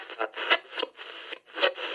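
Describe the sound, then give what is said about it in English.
Crackling static bursts from a PA loudspeaker, a band of hissy noise that swells and drops in uneven pulses, with a brief near-silent gap partway through. “they hear a static noise from the PA”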